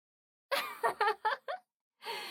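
Coughing after a first inhale of cigarette smoke: five short, breathy, voiced bursts in quick succession, then a pause and a longer raspy exhale, fairly quiet and with no speech.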